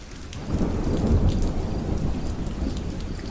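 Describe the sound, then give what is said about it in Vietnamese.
Heavy rain and thunder from a storm over a city: a dense, steady downpour with a deep, continuous rumble rolling beneath it. “Đúng vào lúc này, một luồng sét đỏ quạch rạch ngang bầu trời phóng xuống.”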